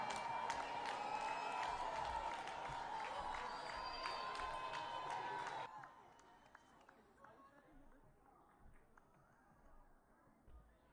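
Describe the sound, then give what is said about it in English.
An audience at a church service applauds and cheers to welcome a performer to the stage, loud and dense at first, then dropping sharply about halfway to a much quieter murmur. “Let's put our hands together and welcome Angel Noko.”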